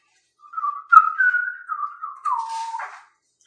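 A person whistles to fill a silence, a single wavering line at a fairly steady pitch that dips slightly near the end, heard alone with no talk.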